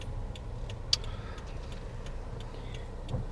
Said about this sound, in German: Ich befinde mich gerade im Fahrzeug meiner Holden.